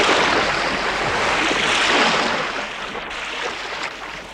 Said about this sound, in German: Schon wogt das Meer.